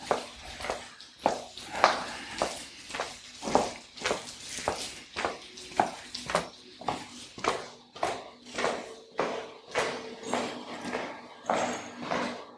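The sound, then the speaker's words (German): Footsteps climb stone steps into a hotel reception. The steps are even and fairly faint, with many hard taps at a steady walking pace and no talk. “Jetzt die Steinstufen. Und ich gehe in die Rezeption.”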